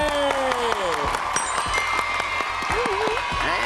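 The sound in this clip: Audience applause at an award ceremony where a team receives a certificate, a steady wash of clapping running beneath voices and tonal sounds throughout.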